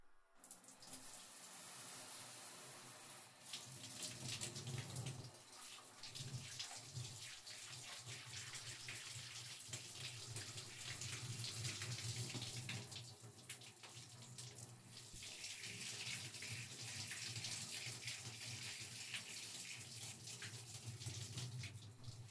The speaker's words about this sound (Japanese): それじゃあ、シャワーで流していきますよ。